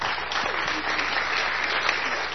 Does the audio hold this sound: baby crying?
no